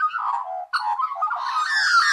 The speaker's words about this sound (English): what's this sound? Magpie. Yes, it's magpie. A lovely sound.